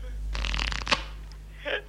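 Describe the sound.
Playing cards are shuffled for a game of Mariáš in a short riffling burst, followed by a brief softer flick of the cards.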